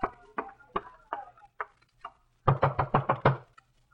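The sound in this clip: Knocking on a door: several evenly spaced raps that grow fainter, then a brief pause and a quicker, louder volley of about six knocks.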